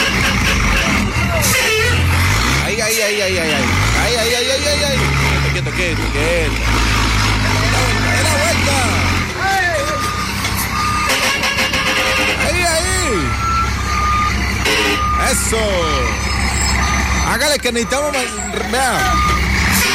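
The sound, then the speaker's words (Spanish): A chiva, a Colombian open-sided party bus, arrives and turns in the Combia Alto area. Its engine and beeping sound under loud music and people talking. “¡Ah, ya llegó la Chiva! ¡Ah, por ahí, dando la vuelta de una!”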